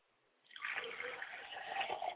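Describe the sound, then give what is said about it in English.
Liquid is poured onto the ground as a libation during a ceremony, a steady splashing trickle that starts after a moment of quiet and runs unbroken to the end. “as we pour libation towards the east”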